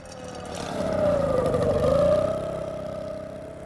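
A vehicle engine driving off at a harbour, a steady mid-pitched drone that swells, dips slightly in pitch, then gradually fades over a few seconds with no voices.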